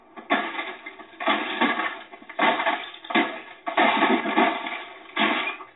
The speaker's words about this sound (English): We gotta smash your laptop with a hammer.